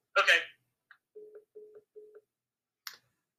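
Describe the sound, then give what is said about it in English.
Telephone tones heard while calling a caller back: three short, low, steady beeps in an even rhythm. A brief noisy burst comes before them and a faint click follows. “This is coronavirus technical difficulties. Please bear with us as I call back this caller.”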